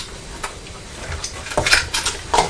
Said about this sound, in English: Should I bring that bowl a little bit closer because you're dropping all the cornflakes, aren't you?